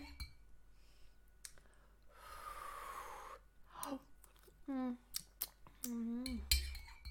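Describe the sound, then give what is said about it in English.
One long, breathy puff of air blown over hot soup to cool it, lasting about a second. Faint clicks and clinks of dishes come before it, and voiced murmurs follow. “Let me blow on the soup first.”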